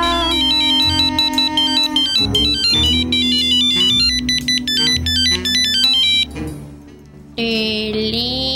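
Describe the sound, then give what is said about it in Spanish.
A telephone ringtone plays as a bright, loud electronic melody of repeating high tones over a steady backing, with a brief dip before a different tone sounds near the end. “Teléfono.”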